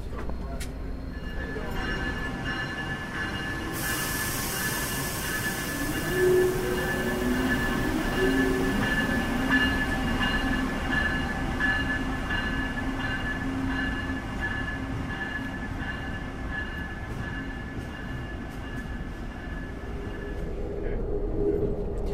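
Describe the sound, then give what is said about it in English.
Electric long-distance passenger train leaving New York's Moynihan Train Hall, running fast through a tunnel after crossing sets of points: a continuous heavy rumble with sustained electric whine tones, some rising in pitch, and faint regular ticking. “After crossing a number of sets of points on the way out of the station, we must now be in the tunnel, and we're moving at quite a fair rate. We have electric traction all the way down to Washington,”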